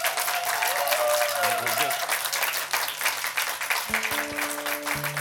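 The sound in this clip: Applause welcomes a performer onstage: sustained, dense clapping at a steady level, joined by a few brief tonal notes toward the end.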